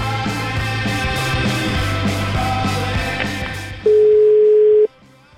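A telephone dial tone sounds while a call is being placed. The loud, flat, steady tone lasts about a second over a constant buzzing background, then cuts off abruptly.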